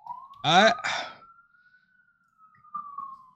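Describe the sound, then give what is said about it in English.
Emergency sirens near a street protest, one steady faint tone held through the whole stretch with a slow, gentle rise and fall, while a voice briefly sounds over it near the start. “Apologies for the sounds, everybody, if you can hear that in the background. We got a protest going on and sirens.”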